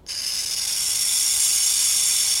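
A burrowing owl hissing at its nest burrow, mimicking the sibilant warning of a cornered rattlesnake: a loud, steady, breathy hiss that starts abruptly and holds unbroken for a couple of seconds.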